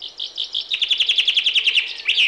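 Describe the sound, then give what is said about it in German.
Chaffinch song just before sunrise in the dawn chorus: a bright, high run of many rapidly repeated notes that ends in a short flourish, clear and loud with no voices. “Fehlt noch der Fink. Gemeint ist hier der Buchfink. Der stimmt erst kurz vor knapp ins Vogelkonzert ein, 10 Minuten vor Sonnenaufgang, mit seinem typischen Finkenschlag.”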